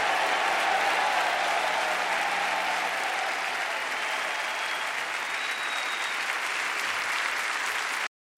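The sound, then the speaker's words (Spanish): Loud, steady applause from a crowd, a dense wash of clapping that holds evenly for about eight seconds before cutting off abruptly. “aplauso sonoro a él.”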